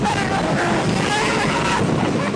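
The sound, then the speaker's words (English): Roller coaster sound effect: a loud, continuous rushing roar like wind tearing past a fast ride, steady throughout with no pauses or distinct clicks. “Cue the roller coaster sound. Now.”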